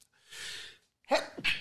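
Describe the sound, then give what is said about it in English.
A fairly quiet sneeze. A drawn-in breath is followed by a sharp burst and a shorter second burst, with no talk around it. “sneezing in the middle of a story”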